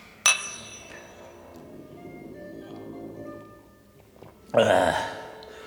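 Glasses clink in a toast with Bloody Mary: two sharp, bright chinks a few seconds apart, the first leaving a short ringing tone.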